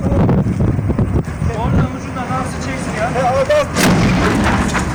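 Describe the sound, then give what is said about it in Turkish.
An explosion bursts from a burning container at a construction site with excavators in Ankara, giving loud, sharp blasts over steady wind noise, with people's voices heard through the commotion. “Ankara'da inşaat alanında yanan konteynerde aniden meydana gelen patlama nedeniyle faciadan kıl payı kurtulan zabıta ekipleri ve sivil vatandaşlar büyük tehlike atlattı.”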